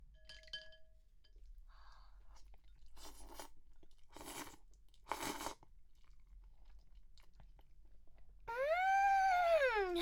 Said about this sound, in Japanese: ほらほら、食べよう食べよう。いただきまーす。